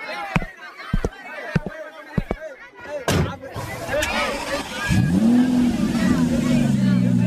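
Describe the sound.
A car drives off. A few sharp thuds come first, then a rising engine note that settles into a loud, steady drone.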